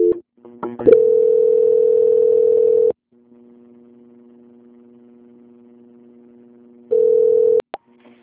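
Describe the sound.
Telephone line tones during a call transfer: a loud, steady tone for about two seconds, then a quieter, lower sustained tone, then the loud tone briefly returns, with a few clicks at the start and end.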